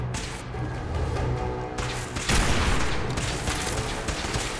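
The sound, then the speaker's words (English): Gunfire in a video game shootout: a dense, continuous barrage of shots with a sharper, louder burst partway through and no talk over it. “I'm just shooting this guy at a distance here.”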